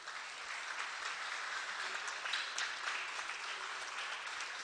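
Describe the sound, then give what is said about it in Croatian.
Audience applause for the younger members of the choir of Saint Mark the Apostle and Evangelist: quiet, continuous and even clapping from many hands, holding steady without pause. “Oni vježbaju samo nekoliko mjeseci, tako da zaista ovo zaslužuje veliki aplauz.”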